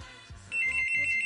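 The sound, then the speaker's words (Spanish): A telephone rings with an incoming call. A steady, high electronic ring tone starts partway through and holds to the end over a low background. “Ahí están llamando por teléfono.”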